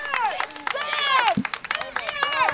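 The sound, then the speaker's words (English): Cheering from a small crowd of about a dozen people outside a governor's mansion as a bill is signed: whooping voices with rising and falling pitch, steady and lively throughout. “As the Republican governor signed the bill, about a dozen people cheered outside of the governor's mansion.”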